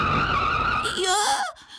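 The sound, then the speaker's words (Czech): A car skids on a road near a pedestrian crossing, nearly running someone over: a loud, sustained tire screech over engine roar that wavers in pitch, then cuts off abruptly near the end. “Málem mě přejelo auto.”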